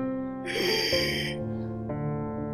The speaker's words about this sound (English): Sorry, I had to take a few breaths.